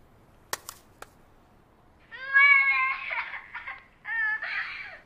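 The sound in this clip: A child cries in a recording made in a rented room where a child was kidnapped. After a few sharp clicks, two bursts of high, wavering wails follow, separated by a short pause.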